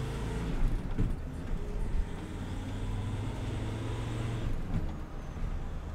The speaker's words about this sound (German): die vollbeladene Pritsche fährt los zur ersten Einsatzstelle.